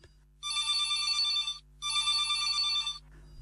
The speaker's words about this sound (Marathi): एक कॉल येतोय, कॉल आपण घेऊया